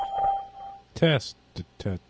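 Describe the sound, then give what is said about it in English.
A steady mid-pitched electronic beep from a call-testing service's recording prompt sounds alone, then gives way to short bursts of people speaking. “After the beep, please record a message of up to 10 seconds.”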